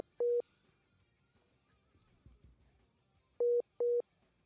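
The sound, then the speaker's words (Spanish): A telephone line tone sounds after a call is cut off: three short, steady, mid-pitched beeps, first a single beep, then after a long pause two more in quick succession, over faint low background noise. “Bueno, parece que se cortó la llamada, o Hugo la cortó porque sí”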